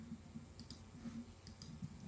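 A few faint, sparse computer keyboard clicks as a number is typed into a search. The quiet taps come in small, irregular groups with near silence between them.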